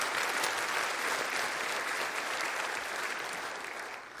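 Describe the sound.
Audience applause at a church service: steady, dense clapping from many hands that holds level throughout and tapers slightly at the end.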